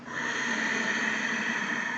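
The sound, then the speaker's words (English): Ujjayi ocean breath, a yoga breathing technique, heard as one long, steady breathy hiss drawn through a constricted throat, holding even loudness for about two seconds. “I also talk about using a breath called the Ujjayi breath, or an ocean breath. It's a yoga breathing technique to force the abdominal muscles to contract. It sounds like this.”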